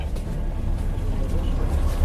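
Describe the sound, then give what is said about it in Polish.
Interior rumble of a moving bus during a ride: a steady, deep engine and road drone holding level throughout, with a slight swell near the end. “Zdarza się, że zaczepiasz ludzi w takiej sytuacji jak ta? Czyli jadąc autobusem?”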